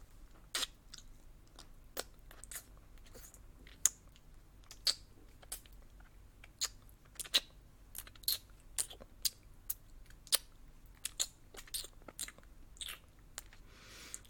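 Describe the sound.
Tasty treats are eaten with the mouth alone, no hands, in many soft wet crunches, smacks and clicks at an irregular pace over a quiet background.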